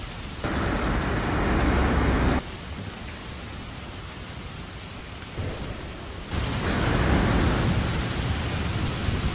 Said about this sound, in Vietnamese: Tiếng sấm chớp vang rền, điên cuồng, gào thét. Một cơn mưa to bất thình lình đổ xuống